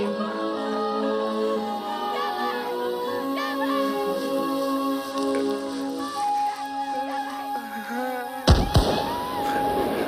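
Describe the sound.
Gunshots during a hunt in a field of grain: a couple of sharp, loud bangs break out near the end, over a steady tonal music bed that plays throughout.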